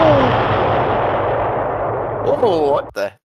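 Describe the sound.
A staged explosion sound effect in an audio drama: a loud, sustained roar with a deep rumble for nearly three seconds, then a short, sharp final burst before it cuts to silence.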